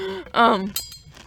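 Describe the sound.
Ice cubes clink in a glass of water, a few bright, sharp taps right after a short voiced sound.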